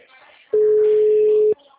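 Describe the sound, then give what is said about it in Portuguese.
An electronic telephone tone: a single steady, mid-pitched beep lasting about a second, sounding alone against quiet background. “Bora, gente, vamos atender. Esse telefone.”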